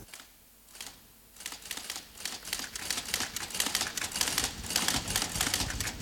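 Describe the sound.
A mechanical typewriter clatters as its metal keys strike in a fast, continuous stream. The taps start sparse and quiet, then thicken into a dense, steady rattle that stays bright and crisp throughout.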